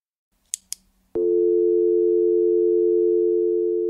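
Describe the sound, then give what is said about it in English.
A telephone line is linked to a station microphone: two sharp clicks, then a loud, steady electronic tone that drones on unbroken at a fixed pitch. “Let me link up the phone to the station's mic. Hold on.”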